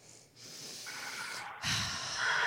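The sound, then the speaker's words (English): A person breathes in through the nose, a soft, hissing, snort-like intake that swells in two stages and stays fairly quiet throughout. “Breathe in through your nose, out through your mouth. Breathe in.”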